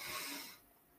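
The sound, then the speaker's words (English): A deep breath drawn in through the nose, heard as a short, faint, airy sniffing hiss lasting about half a second before falling away to near silence. “big breath in through the nose and out through the mouth. And if you purse your lips, like if you're blowing through a straw, this actually helps to calm down the nervous system even better. So let's do this. Take one deep breath in.”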